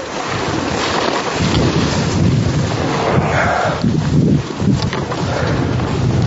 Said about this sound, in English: And now we're come to a nice place where we can take a general ride down. Beautiful snow. It's packed powder.